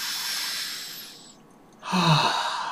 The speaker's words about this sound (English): every time I start to get a little anxious, or whatever the case may be, oh, I start doing breath work." I go,